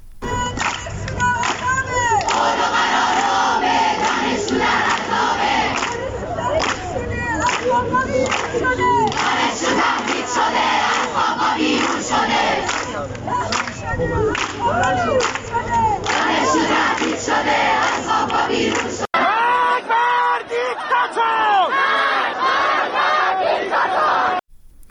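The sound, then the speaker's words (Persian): Allameh university students chanting together at a protest: loud, rhythmic crowd chants that continue without a break, with the voices shifting to a new phrase near the end. “صدای دانشجویان علامه را بشنویم.”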